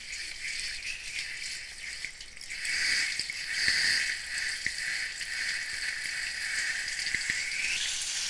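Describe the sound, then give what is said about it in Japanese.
Running shower water gives a continuous bright hissing spray, with a few faint taps under the flow and no voices. “このシャワーの音”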